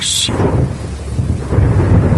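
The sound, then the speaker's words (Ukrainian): An autumn rainstorm with rumbling thunder and steady rain, a loud, continuous low roar that carries through the whole stretch, with no voices. “Полились затяжні сірі дощі, від яких пожовкли всі квіти в лісі.”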